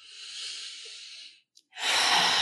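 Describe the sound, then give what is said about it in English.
A person takes a deep breath: a long, airy inhale, a short silent pause, then a fuller, louder exhale that carries on to the end. “Before I dive in, I just want to take a deep breath, and I invite you to do the same with me.”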